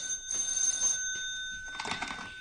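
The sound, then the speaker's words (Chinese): A telephone rings during a radio drama, giving steady electronic tones in a few short bursts at moderate volume, with no talking. “等我听电话先。”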